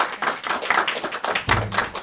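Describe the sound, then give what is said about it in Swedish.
Warm applause for the day's authors: a steady patter of hand claps with a few louder bursts, lively and unbroken. “Då tänkte jag att vi skulle kunna ge en varm applåd till dagens författare.”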